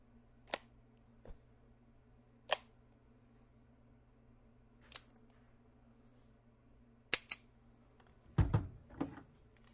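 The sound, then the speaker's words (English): A Smith & Wesson Model 66 .357 Magnum revolver gives off sharp metallic clicks as it is handled. There are several isolated clicks, widely spaced, then a tighter cluster near the end, all faint against quiet. “Smith & Wesson Model 66, 357 Magnum revolver.”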